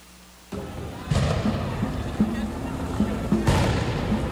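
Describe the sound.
Police grenades explode during a street protest with tear gas in a city neighborhood: a few sharp, heavy booms burst over a continuous low rumble, with faint voices in the background.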